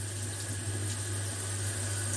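Hot shower water runs in a steady, even hiss with a low hum beneath it, continuous and unchanging throughout, with no voices.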